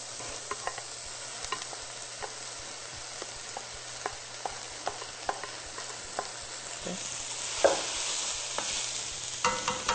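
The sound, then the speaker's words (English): Mushrooms sizzle in a hot pan, a steady frying hiss dotted with sharp crackles and pops, with a few louder spits toward the end; no voices. “We're going to add our mushrooms.”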